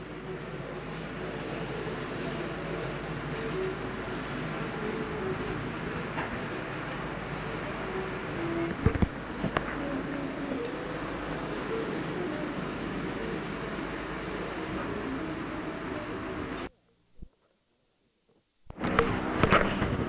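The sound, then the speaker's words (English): Military tanks driving along a road give off a steady, loud rumble with a clattering texture that runs almost unbroken. It cuts out briefly near the end, then returns. “Now, can you hear those tanks?”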